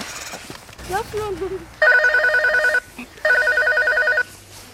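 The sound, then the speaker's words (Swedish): Telephone ringing on an outgoing call: two long, loud warbling ring bursts separated by a short gap, preceded by a brief voice sound. “Vi kan ringa till Skogsjocke.”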